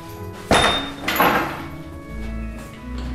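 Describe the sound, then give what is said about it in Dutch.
A gate opens with two sharp clattering knocks close together, then a low, sustained rumble as it swings. “De poort. Ja, de poort gaat open.”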